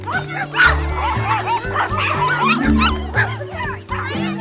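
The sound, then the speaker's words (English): Puppies barking, yipping and whimpering together in a garden, a busy, overlapping chorus of high yaps that carries on continuously throughout. “Rosa's puppy classmates jump out and run toward her, all wearing custom floaties on their arms”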